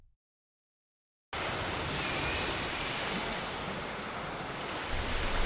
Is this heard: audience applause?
no